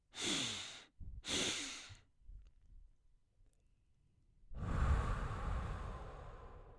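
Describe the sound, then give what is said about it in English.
Two short, airy nasal inhales, taken one after the other as part of a guided breathing exercise, followed by a pause and then a longer, louder exhale that trails off. “This time, take two breaths in through the nose.”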